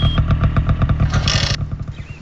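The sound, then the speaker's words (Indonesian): A motorcycle arriving, its engine putting out a steady, rapid low pulsing rumble with a brief rattling hiss partway through, holding an even loudness throughout. “itu macam bunyi motor.”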